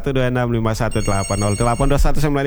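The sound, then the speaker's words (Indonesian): A telephone rings as a listener calls in to a radio show, its bright trilling tone running under a loud voice. “Sahabat budaya mau bergabung silakan deringkan lagi”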